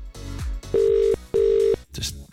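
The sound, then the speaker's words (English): A telephone ringing tone sounds as two steady, even pure-tone bursts of equal length with a short gap between, framed by other brief noises before and after. “let's dial up and let's see if it's your phone that's ringing right now.”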